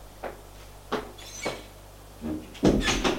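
A door being opened to let a visitor in: a few faint clicks and knocks, then a louder scraping, rustling movement at the end.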